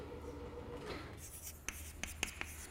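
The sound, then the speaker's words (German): Chalk writing an SQL query on a blackboard: faint scratching strokes with a few light taps near the end, set against steady low background noise. “ich schreibe sie mal an die Tafel, diese SQL-Anfrage”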